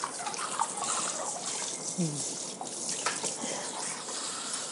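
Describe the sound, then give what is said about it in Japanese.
Running tap water, a steady soft hiss of flow as cold hands are washed and the water temperature is turned up, with talking over it. “あ、もう手が冷たい、もうちょっと水温上げよう。”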